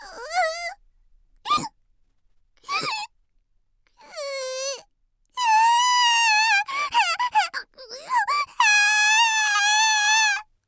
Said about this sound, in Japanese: あらら、泣き出しちゃったよ分身の方。